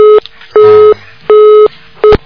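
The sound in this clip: Busy tone on a phone line after a call is cut off: four evenly spaced, loud, steady mid-pitched beeps with short silences between them. The last beep is cut short.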